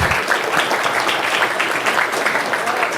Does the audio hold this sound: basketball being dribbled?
no